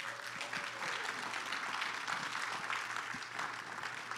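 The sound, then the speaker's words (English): Applause from the audience at a church service, welcoming a pastor: a steady, dense wash of many hands clapping that holds at an even level for about four seconds with no break. “Please give a hand for Pastor Marianne.”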